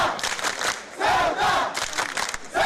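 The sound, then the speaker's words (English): Protesters cheer and shout as a politician is escorted out of the city in an armored police vehicle. A loud chorus of many voices swells and dips in several waves. “Eventually, he had to be escorted from the city in an armored police vehicle as protesters cheered.”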